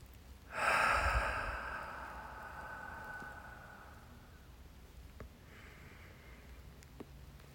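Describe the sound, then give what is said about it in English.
A single deep breath is drawn in, swelling quickly to its loudest near the start and then fading slowly into quiet. The breathing is soft and heard alone. “I invite you to take some nice, full, deep breaths.”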